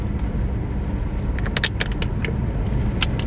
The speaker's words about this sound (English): I'm gonna put the windows up because it's probably stupid to drive with the windows down because it just makes the noise.